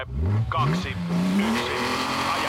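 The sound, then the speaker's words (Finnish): A rally car engine revs hard as the car accelerates, a loud growl whose pitch climbs steadily over the first part and then holds high. “3, 2, 1, aja. Ota kaikki irti maailman parhaasta rallista.”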